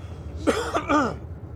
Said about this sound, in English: Just coughing this entire time. But we're not sick.